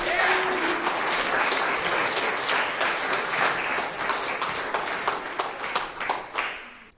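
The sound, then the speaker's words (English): Audience applause for a performer at a poetry reading: dense, steady clapping that holds strong for several seconds, then thins and tapers off at the end. “That is Chris Gusta, ladies and gentlemen. Give him a hand.”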